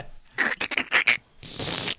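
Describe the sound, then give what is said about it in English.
Handling noise from a microphone being touched, with crinkly, foil-like rustling. A few scratchy bursts come in quick succession, then a short pause and a longer steady rustle. No voices. “I barely touched the thing. Yeah. I don't know why. Okay, I won't even touch it. Because you're touching the microphone.”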